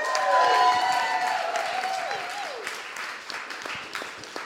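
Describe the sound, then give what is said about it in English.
Sustained applause from a live audience at an audio drama festival welcomes performers onto the stage. The clapping is dense and steady through the whole clip, strongest at the start and easing only slightly toward the end. “Please put your hands together for Sarah Golding and Indy AF.”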